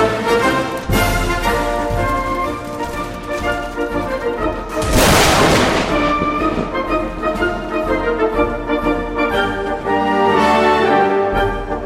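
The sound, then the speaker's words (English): A rocket launcher fires in a video game: one loud, broad burst of blast noise about midway through, sitting over steady tonal game music that runs the whole time. “Oh, also, I have a rocket launcher. Ah! Damn, I love this game.”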